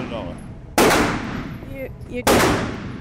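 Gunfire at a shooting range, with shell casings ejecting: two sharp, loud gunshots, each cracking suddenly and then decaying, separated by about a second and a half of quieter background.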